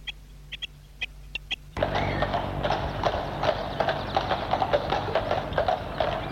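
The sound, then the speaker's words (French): Hooves of ridden horses clip-clopping as riders set off at a gentle trot: a few sparse clops at first, then a dense, continuous clatter of many hoofbeats over a steady rustling background. “Ils sont remontés en selle et partent au petit trot.”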